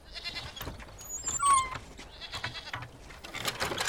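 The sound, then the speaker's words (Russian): Goat bleats as the animal is lowered on a rope from a roof into a yard. A few short, strained bleats mix with scuffling and clattering noises, with no talk. “На веревке спустили козу Марину с крыши.”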